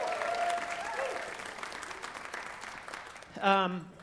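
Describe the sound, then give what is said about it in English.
Audience applause with some cheering greets a married couple introduced on stage, a steady clatter of many hands that fades slightly, with a voice rising briefly near the end. “you can cheer, we can cheer for the Duprees.”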